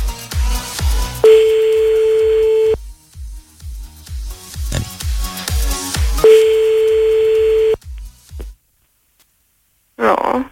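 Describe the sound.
Telephone ringback tones on a call back during a radio phone game, two long steady buzzing tones over a pulsing music beat, then a pause of silence before a brief voice at the end.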